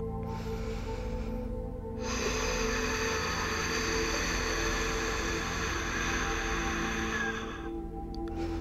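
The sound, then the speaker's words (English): Yogic breathing done with the mouth closed and the throat constricted, giving a long, steady, rasping hiss of air. It grows slightly stronger partway through, then eases near the end, with no talking. “It can also be done with a closed mouth, and it's the same kind of constriction at the back of the throat.”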